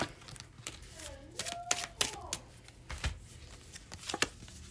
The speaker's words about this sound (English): let's take one last card as an outcome.